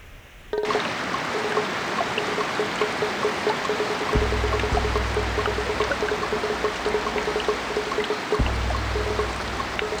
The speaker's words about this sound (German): Gewaltiges Trommeln auf allen Blättern. Ein Wassersturz wie eine Sintflut.